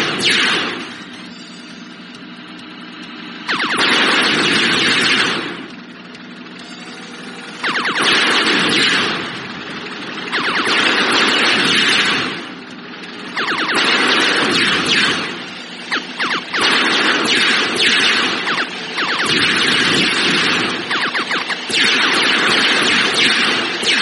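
Bombs going off in a space shooter video game, each wiping out all enemy ships at once: many long bursts of harsh, hissing blast noise repeat at irregular intervals over a steady, quieter noise bed, with no voices.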